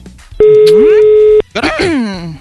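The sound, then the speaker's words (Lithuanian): Telephone ringback tone while calling a newly married groom: one loud, steady, continuous tone lasting about a second, followed by people talking. “Skambinam Dariui. Turėtų atsiliepti Darius.”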